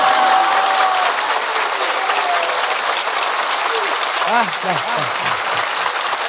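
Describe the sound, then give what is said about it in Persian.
A crowd claps hands at a celebration of the night of Imam Ali's birth. The applause is dense and steady, and a voice rises over it near the end. “پس همه کف زدن، دست ها سرخ شده یا که حنا بندان است.”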